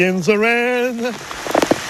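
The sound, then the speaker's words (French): Rain falling on a man wearing glasses outdoors: irregular light pattering taps toward the end, following a sustained sung phrase by a male voice. “Les gouttes de pluie qui coulent sur les verres de lunettes. Mais lui, ça ne le dérange pas. La pluie fait du bien.”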